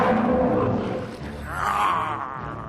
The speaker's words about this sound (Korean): 설마 이건 호랑이?